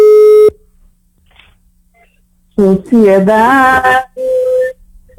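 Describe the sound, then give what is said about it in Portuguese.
A steady, low telephone ringback tone sounds on an outgoing call placed from a radio studio in Salvador, Bahia. A short burst opens, then near silence, then a loud sung voice, and then another brief tone. “Produção, pode ligar, pode ligar. Tá chamando já, já tá chamando.”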